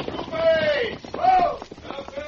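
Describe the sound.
Hoofbeats of horses approaching in an old radio western, a quick clip-clop running faintly beneath talking voices.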